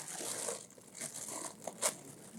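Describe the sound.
Faint crinkling of a snack bag being opened: soft, irregular rustles and crackles of plastic, with a sharper crunch near the end.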